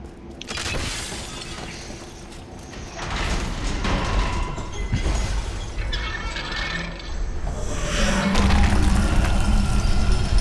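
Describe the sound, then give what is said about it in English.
An elaborate unlocked door opens in a video game with a heavy grinding mechanical rumble. It swells louder after a few seconds and continues for several more with rough scraping crashes, and no voices. “What an elaborate unlocked door.”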